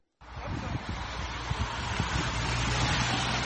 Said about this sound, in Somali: baabuurta ayaa dhaqsi ku maraya wadada qalqalooca badan ee dhulka buuraleyda ah ee magaalada Fintimiliya ee waqooyiga dalka Talyaaniga waa maalin roob iyo qabow badan